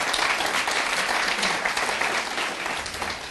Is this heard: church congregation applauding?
yes